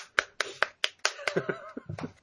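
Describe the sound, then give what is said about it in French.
Sparse hand clapping by Formula 1 race commentators: sharp, separate claps at an irregular pace, with the later ones quicker and softer. “Allez hop, on applaudit.”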